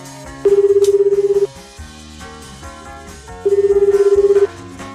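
A telephone tone heard as a radio call-in is placed: two steady, buzzing bursts, each about a second long, separated by a short pause.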